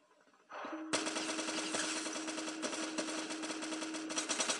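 Gunfire in a video game shootout: after a short, quiet lead-in, a loud, continuous burst of rapid automatic fire runs steadily to the end, with a faint tone held through the first part of the burst.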